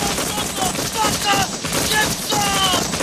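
Gunfire aimed at a tree in a combat scene: a dense, continuous barrage of rapid shots with no clear gaps, loud throughout.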